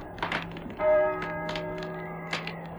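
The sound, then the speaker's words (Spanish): A church bell tolls for evening prayer. One strong strike leaves a long, humming ring that slowly decays, and a fainter strike follows near the end. “¿Oyes? ¿Oyes? Las campanas doblan.”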